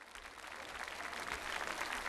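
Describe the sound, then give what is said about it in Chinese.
Audience applause following a tribute at a Chinese-language film event: faint but steady, dense clapping that holds evenly for the whole couple of seconds. “请大家继续支持新芷蕾，他值得所有的掌声，谢谢大家。”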